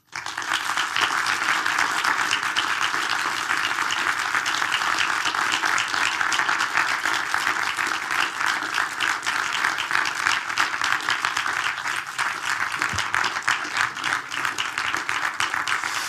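Audience applause greets two guests as they come onto a stage. Dense, steady clapping continues at an even, loud level for about sixteen seconds, with no voices heard.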